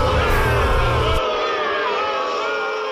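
Audience booing, a sustained loud crowd roar that holds steady throughout, its deep low rumble dropping away partway through.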